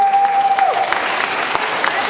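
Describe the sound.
Audience applause for teams at an event: a dense, steady wash of clapping that stays loud throughout, with a faint whistling tone early on.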